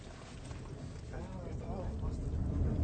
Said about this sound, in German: ويصعدون إلى القمة بقطار بروكن. Alles einsteigen, einsteigen bitte, wir fahren ab.